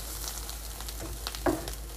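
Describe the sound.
An egg sizzles in a frying pan as it is flipped, giving a steady crackling hiss throughout with one brief soft knock midway.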